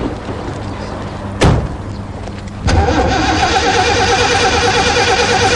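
A car engine is cranked: a brief burst of starter noise, a short lull, then the engine catches and keeps running with a steady, loud mechanical rumble. The car is one that sometimes needs a crank or two before it starts.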